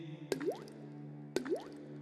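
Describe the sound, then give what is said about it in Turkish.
Water dripping: two distinct drops about a second apart, each a sharp plink followed by a quick upward-gliding bloop, over a steady low hum. “Damlaya damlaya göl olur, dünyamız çöl olmasın. Su sesi,”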